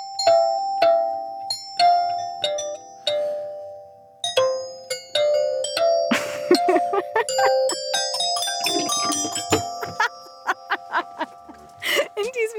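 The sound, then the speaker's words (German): Glockenspiel played as a short melody: many bright, ringing struck metal notes of varied pitch, spaced unevenly at first, then quicker and more overlapping toward the end. “jetzt spielst du uns auf deinem Glockenspiel noch ein Stückchen zum Schluss”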